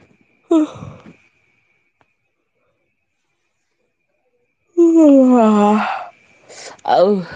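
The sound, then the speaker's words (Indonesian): A person yawns with a long, voiced, groaning exhale lasting about a second. It comes after a short vocal burst and a silent pause, and a briefer breathy vocal sound follows. “Nguap doang rahang gue sakit anjing. Nguap doang selio rahang.”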